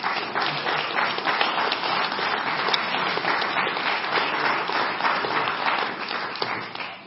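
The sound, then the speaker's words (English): A church audience claps for a guest speaker, who is an ordained minister and evangelist, in steady, continuous applause. The clapping holds at a moderate level throughout, with no voices over it. “Okay, let's give him a hand.”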